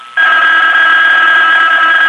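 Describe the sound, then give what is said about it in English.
A telephone rings with a loud, steady electronic tone that starts suddenly and holds unbroken to the end, with no voices over it. “And then the phone rang. I let it ring.”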